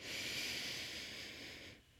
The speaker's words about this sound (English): And as we near the end, finishing with a deep breath in